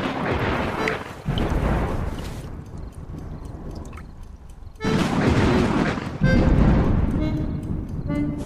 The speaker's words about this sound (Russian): На улице дождь, гроза, Елена Михайловна